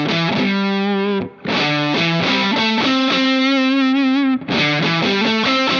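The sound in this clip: A guitar strummed with the right hand while the strings are muted so only single notes ring out, carrying a distorted electric tone. Sustained notes shift in pitch through a short phrase, broken by two brief gaps.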